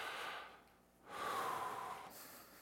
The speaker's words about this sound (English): this moment is a reminder for us to trust him, to take that collective breath in